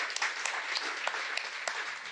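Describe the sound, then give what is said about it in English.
Faint audience applause from a crowd for a man being introduced, a soft, continuous patter of many hands with a few crisp single claps popping out above it. “Give him a big round of applause, ladies and gentlemen.”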